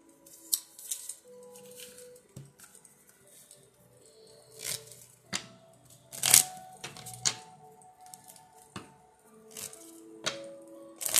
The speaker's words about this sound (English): Let's go ahead and pull up some love cards here and see what's up.